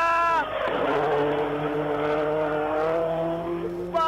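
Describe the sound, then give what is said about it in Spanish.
A race car nearing the finish line of a road race roars past with a sustained, harmonic engine whine at a fairly even pitch and loudness. A voice is briefly heard at the start and end. “coche a la vista”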